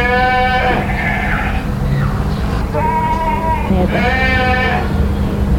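Livestock kept in sheds beside a five-story building bleat loudly, giving a few wavering, harmonic calls that rise and fall in pitch over a constant low rumble of background noise.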